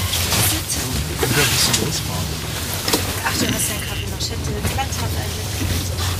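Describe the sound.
Low engine rumble of a bus pulling away and driving on an airport tour run, a steady drone with road noise running throughout and some talk over it.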